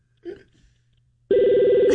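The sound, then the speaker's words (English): A telephone rings on a call line: a loud, steady electronic ring tone starts partway through and holds to the end, after a brief faint sound near the start. “Oh, nice ring. What kind of phone is this?”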